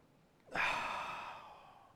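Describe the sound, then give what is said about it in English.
A group of people taking a deep breath together, heard as one sudden collective rush of breath that swells and then slowly fades, with no talking. “Take a deep, deep breath. Okay, ready? One, two, three. Deep.”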